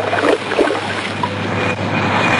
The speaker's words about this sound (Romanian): Corabia străbătea oceanul de câteva zile în șir.